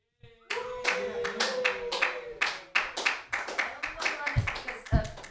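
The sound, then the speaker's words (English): Hand clapping for the host at an open mic comedy show: a steady run of sharp, fairly loud claps, with a couple of low thumps near the end. “Thank you so much. Give it up for your host, everybody.”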